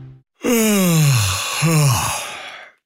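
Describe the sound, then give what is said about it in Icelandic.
A long, drawn-out human yawn in a road-safety message about drowsy driving. It is voiced and falls in pitch, then swells into a second, shorter falling stretch. No talk is heard alongside it. “Ertu núna að geispa? Kannski komin tími til að stoppa bílinn og fá sér kaffisopa?”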